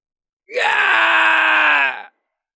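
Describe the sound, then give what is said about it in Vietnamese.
Loud, anguished scream of a giant wolf beast: one sustained, harmonically rich cry lasting about a second and a half, steady in pitch and heard alone. “Tiếng hét lớn của con thiên lang đầy đau thương bi thảm”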